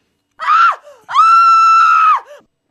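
A human scream: a short, loud cry, then a brief pause and a long, sustained, high-pitched yell held for about a second before it breaks off.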